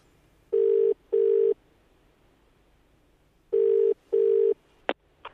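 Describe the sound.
A telephone rings while a caller is being put through, giving two pairs of steady mid-pitched ring tones separated by a longer pause, followed by a brief click.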